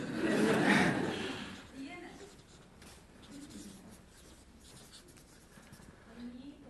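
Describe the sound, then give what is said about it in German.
Handwriting scratches across paper, starting with a dense, loud burst of scratchy pen strokes in the first second, then thinning into softer, intermittent scribbling as quiet voices murmur in the background. “Nachtragen, ja. Da muss ich schreiben.”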